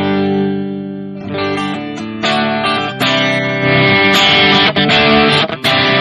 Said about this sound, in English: if I'm going to be playing power chords and I'm going to be doing something heavier, now my strum is going to change because I'm playing power chords versus strumming openly.